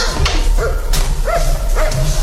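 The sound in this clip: A dog barks three times at an even pace, each bark loud and sharp with a brief rising-then-falling tone, over a constant background rumble.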